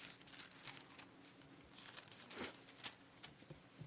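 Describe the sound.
Bible pages being turned, with light papery crinkles and rustles in a few quick irregular bursts. The sound is faint and stays near a low background hiss.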